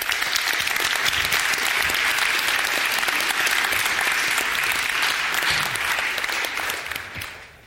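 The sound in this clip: An audience applauding as a geological scientist is welcomed onto the stage for a talk: a loud, steady wash of clapping that holds for about seven seconds and then fades.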